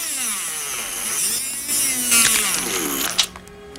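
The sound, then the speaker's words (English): A surgical drill bores into a human skull, its high, steady whine wavering up and down in pitch, with a brief sharper burst near the end and no talking. “The female surgeon takes a large drilling instrument and starts work on his skull.”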